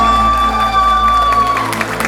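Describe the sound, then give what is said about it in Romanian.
Wedding guests clap and cheer for the newlyweds at a reception. Scattered claps and a few whoops build near the end over a held musical tone. “Aplauze, vă rog frumos, din suflet!”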